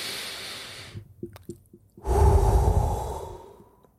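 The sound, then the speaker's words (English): A deep breath taken before a prayer: after a few faint clicks, one long, airy breath swells up, then slowly fades away, with no talk over it. “Let's have a breath and a prayer.”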